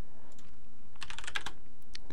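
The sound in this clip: Typing on a computer keyboard: a quick flurry of crisp key clicks after a quiet start, followed by a few isolated taps, all faint and alone.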